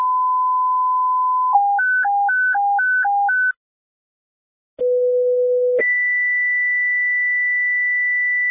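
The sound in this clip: Ambulance dispatch alert tones: a steady pure tone, then eight quick beeps alternating between two pitches, a brief silence, a short low tone, and finally a long, higher steady tone. No voices.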